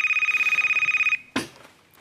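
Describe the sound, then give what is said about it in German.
A telephone rings with an incoming call: a rapid, pulsing electronic trill held for about a second, then it cuts off and a short, sharp clatter follows before quiet. “Oh warte, LA ruft an.”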